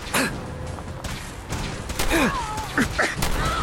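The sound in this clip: Gunfire in the video game Fallout 4: a few sharp shots crack out at irregular intervals, mixed with voices.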